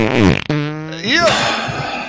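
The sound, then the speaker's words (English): Fart noises, a few loud buzzy bursts in quick succession, one stretching into a drawn-out tone that squeaks upward before breaking into a rough, sputtering tail. “They were farts.”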